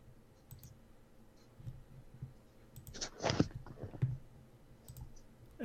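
A computer mouse gives a few faint, sharp clicks, spaced irregularly over quiet background noise and grouped mostly toward the middle.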